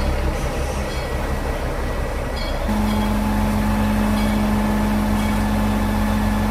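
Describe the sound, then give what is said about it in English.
A D165 diesel shunter locomotive moves beneath a suspended tender, its engine giving a loud, steady rumble and drone, joined partway through by a sustained low hum that holds to the end. “The D165 shunter is now moving just directly beneath the tender, which is suspended in mid-air.”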